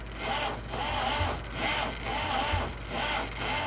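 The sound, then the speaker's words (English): Welding and cutting machines and an old generator run in a Baghdad safe-making workshop, giving a loud, continuous mechanical grinding whir that pulses in a regular repeating cycle, with no voices. “other workers dust off the welding and cutting machines and try to start the old generator.”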